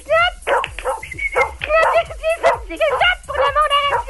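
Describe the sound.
A pet dog barks loudly and repeatedly in quick high-pitched yips and barks, with an excited, whimpering edge, in a rapid uneven series that fills the whole stretch.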